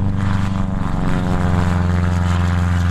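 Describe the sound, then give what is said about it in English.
A small propeller plane's engine drones steadily and loudly, with student pilots practicing touch-and-go landings at Triangle North Executive Airport in rural Franklin County, north of Raleigh. It is a constant, deep throbbing hum with no voices. “At Triangle North Executive Airport, about 30 miles north of Raleigh, student pilots are practicing touch-and-go landings.”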